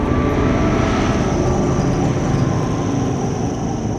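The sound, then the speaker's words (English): An arrowhead-shaped aircraft flies overhead above a mansion with a loud, steady engine roar that stays constant throughout, topped by a thin, high whine. “An aircraft flies above. Katniss turns to see it.”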